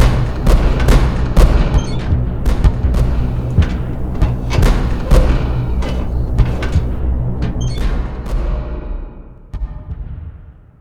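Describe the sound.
Gunfire aimed at fleeing people, staged as a radio drama effect for a Spanish Civil War scene. Many sharp, loud bangs and thuds come in irregular bursts over a constant rumbling bed, then thin out toward the end.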